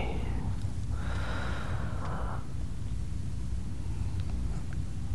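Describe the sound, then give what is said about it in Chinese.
Soft breathing during a guided relaxation exercise: a few airy breaths, one a long, hissing breath lasting over a second, faint against a low background hum. “停住，吐气，吸气，”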